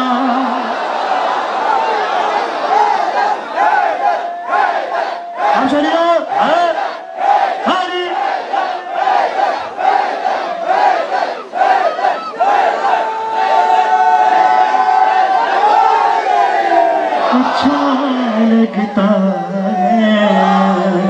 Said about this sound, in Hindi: महफिल में यूं नारा लगाना अच्छा लगता है, अच्छा।